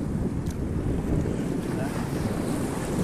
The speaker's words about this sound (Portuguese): E aqui ainda tá batendo, a onda ainda tá mais alta aqui, ó.